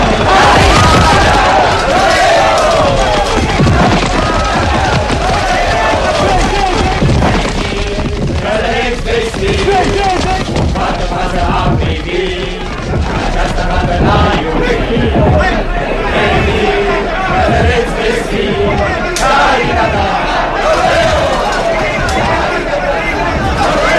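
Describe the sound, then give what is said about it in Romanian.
An enthusiastic crowd improvises a song to cheer its favourite, a dense, loud mass of many voices with a rhythmic pulsing beat that holds steady throughout. “După cum auziți și dumneavoastră, dragi ascultători, publicul, cuprins de un entuziasm fără margini, își susține favoritul improvizându-i un cântec.”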